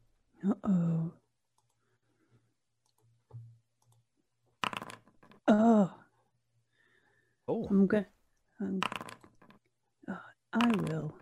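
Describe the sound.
Dice clatter as players roll during a tabletop role-playing game, a few short, sharp rattling clicks scattered between and beneath several people talking.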